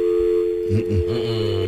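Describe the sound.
A telephone dial tone sounds after a call to a live phone-in line is cut off. It is a steady, continuous low tone at even loudness, with a few brief muffled sounds partway through.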